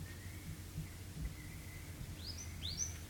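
Two birds calling faintly over a low hiss: thin high whistles, then two quick upward-sweeping chirps near the end.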